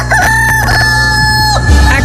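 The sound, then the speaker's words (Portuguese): A rooster crows in one long, loud, sustained call that holds a steady tone and then cuts off, followed by a brief low burst of sound near the end. “o galo já tá cantando”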